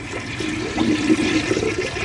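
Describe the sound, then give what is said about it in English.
Water is dumped from a bucket outdoors in a brief rushing, splashing gush that swells and then tapers off, with no voices. “I'm saturating all the outside with water. I'm dumping water.”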